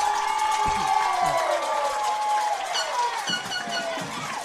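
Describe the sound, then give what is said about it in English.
A home crowd cheers after a two-yard touchdown at a high school football game, Summit at Franklin County. The cheering is loud and sustained, with whoops and individual yells rising above it. “The home faithful is up on their feet, cheering them on, and he's in. He's in. Touchdown”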